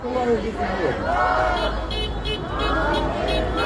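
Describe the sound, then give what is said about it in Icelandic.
People celebrate in a street in Kherson on the day of its liberation, with lively overlapping voices and crowd chatter over a low rumble of passing vehicles. “Hérna heyrum við fólk fagna þennan dag.”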